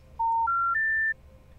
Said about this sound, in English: That is a special information tone.